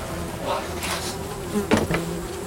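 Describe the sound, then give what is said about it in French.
Swarms of flies buzz inside train wagons packed with thousands of corpses, a dense, steady droning hum that fills the whole clip, with a few brief louder swells near the end. “Le bruit, c'est les mouches. Il y a des nuées de mouches dans les wagons.”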